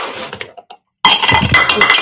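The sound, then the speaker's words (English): Cups clink and clatter as they are grabbed right beside the microphone, a loud jangle of knocks that dies to silence for a moment before a second, harsher burst of clattering resumes. “sorry for the noise. Yeah, right next to the microphone. Sorry. Trying to grab some extra cups.”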